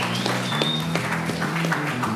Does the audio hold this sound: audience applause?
yes